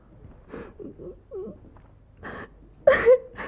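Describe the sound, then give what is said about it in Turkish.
A girl cries softly in broken sobs and whimpers, a few short moaning bursts followed by a louder catch of breath near the end. “yavrum neden ağlıyorsun?”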